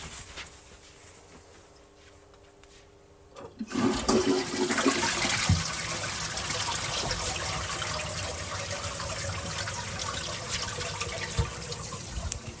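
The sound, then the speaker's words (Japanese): A toilet flushes in the morning after use: quieter sounds give way a few seconds in to a sudden loud rush of water that continues steadily to the end. “トイレットペーパーを取って拭いて流します。”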